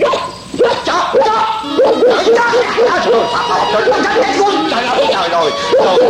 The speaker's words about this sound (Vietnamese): nuôi chi cái giống chó ác ôn này, cắn rách mẹ cái quần áo cổ của tôi rồi